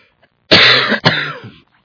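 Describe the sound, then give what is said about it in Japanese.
Two harsh coughs from someone with a cold, heard alone: a long rough burst followed quickly by a slightly shorter second one. “風邪ひいて、咳がね、止まないんですよ。”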